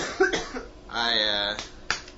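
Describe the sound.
A few rough, bursty coughs break out between stretches of voiced vocal sound, short and uneven in loudness.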